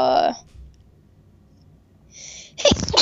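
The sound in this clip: A single loud, sharp sneeze bursts out near the end, after a voice at the start and a stretch of near silence.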